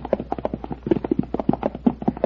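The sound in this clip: Horses' hooves clip-clop as the horses walk back to the stable, a steady run of many loud hoofbeats in an even rhythm.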